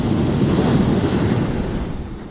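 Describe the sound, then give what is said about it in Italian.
Surf breaks on the beach of Giampilieri in a loud, continuous rush of waves, with wind buffeting throughout and no voices. “Le onde che sentite sono quelle che potete ascoltare anche quando vi collegate a Radio Antidoto, quando non trasmette nessuno. Sono le onde della spiaggia di Giampilieri.”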